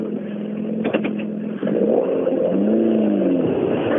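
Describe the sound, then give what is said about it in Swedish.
A rally car engine revs hard as the car drives past, a loud, steady roar whose pitch climbs and then dips in the second half, with a few sharp clicks near the start. “Martin Jakobsson var det alltså som rullade förbi där.”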